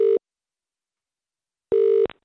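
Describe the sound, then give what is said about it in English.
A telephone call rings out unanswered, giving a steady mid-pitched ringback tone in two bursts: the first clipped at the start, then a long silence, then a full burst ending in a faint click. “Let's call my mum. Let's call Vera. Let's call her. Mum, pick up the phone, please.”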